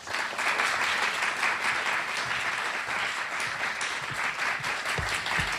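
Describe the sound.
Audience applause welcomes an author onto the Free Library stage in Philadelphia: dense, steady clapping from a large crowd that holds at an even level throughout.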